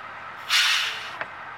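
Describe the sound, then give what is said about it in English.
As the bus stops, its air brakes let out a loud burst of hiss that tapers off within half a second, followed by one short, sharp click. “Let's get on this bus here.”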